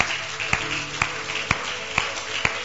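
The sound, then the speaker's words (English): Church audience clapping hands in time: a steady beat of loud claps about every half second over a softer bed of scattered clapping. “Let's give a clap of hands to the Lord.”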